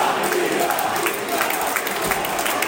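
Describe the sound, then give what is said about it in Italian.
Football stadium crowd at a Pisa–Spezia match reacting to an attack, a dense, steady roar of many voices and clapping that holds at a constant loud level throughout. “E il pubblico risponde eh, alle iniziative della squadra.”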